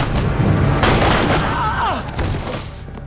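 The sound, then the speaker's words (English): Gunfire as a man runs up shooting in a violent graveyard fight, several sharp, cracking shots punching through a dense, booming low rumble that stays loud throughout. “He grabs DeMille's gun as Santos runs up shooting.”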